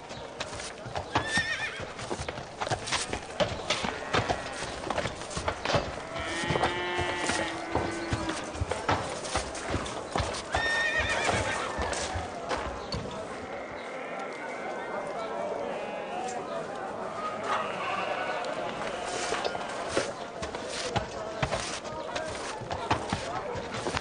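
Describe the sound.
Hoofbeats of an Arab horse at a caravanserai in Nishapur, a steady rapid clip-clop running throughout. Several loud, shrill whinnies and neighs rise above the hooves.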